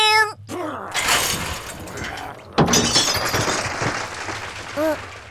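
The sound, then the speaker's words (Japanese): Glass shatters in two loud, crashing bursts, and a cat meows briefly at the start and again near the end. “今パリンって。”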